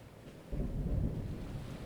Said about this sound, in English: The hypnotic sound of rain and the soothing waves continue to embrace you as you lie there,